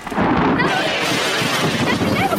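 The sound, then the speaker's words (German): Lightning crawls across a floor toward a phone booth, heard as a loud, sustained crackling roar with rumbling undertones and thin whining tones that waver above it, holding for over two seconds. “Der Blitz ist über den Boden gekrochen. Er ist bis an unsere Telefonzelle.”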